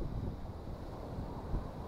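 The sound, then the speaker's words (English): Wind blows outdoors, buffeting the microphone with a steady, low, rumbling roar for about two seconds, with no voices. “I need something to block my wind.”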